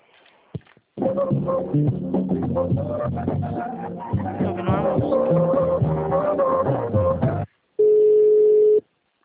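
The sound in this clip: Telephone line tones on a call being transferred to a shop's checkout desk: several seconds of busy tonal sound, a brief gap, then one steady, even beep tone held for about a second.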